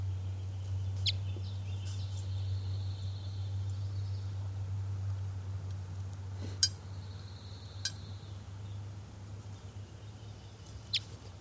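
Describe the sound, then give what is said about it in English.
A test recording of a bird calling: a few faint, sparse chirps and thin whistled notes sound over a steady low hum, with sharp little call notes standing out near the end. “These are test recordings of bird 407.”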